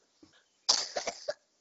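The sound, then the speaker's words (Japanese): Coughing after choking on mandarin orange: a small throat sound, then a harsh, quiet burst of coughing broken into a few rapid pulses before it stops. “むせた。 大丈夫、 みかん食いすぎた。”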